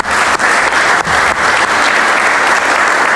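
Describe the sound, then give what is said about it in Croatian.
Members of the Croatian government applaud the election of Marija Pejčinović Burić as Secretary General of the Council of Europe. The loud, dense clapping goes on steadily, with a few brief dips. “Evo, ja mislim da Marija zaslužuje jedan aplauz cijele vlade.”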